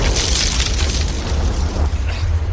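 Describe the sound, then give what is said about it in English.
A bomb dropped from above explodes in a loud, sustained roaring blast, with a deep low rumble and broad hiss filling the whole clip without letup. “Did somebody drop a bomb on us or something?”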